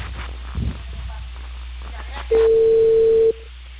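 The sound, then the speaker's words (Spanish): A single steady ringback tone sounds on an outgoing phone call, a flat mid-pitched beep lasting about a second over low background hum and muffled noise. “Espera, estoy llamando a Lisa.”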